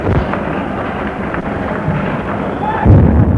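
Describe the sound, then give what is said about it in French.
Offensive grenades go off in a street during rioting, a dense rumbling roar of blasts with one heavier, louder burst near the end, and a voice faintly present beneath the noise. “Maintenant, rue Saint-Jacques également, les grenades offensives explosent.”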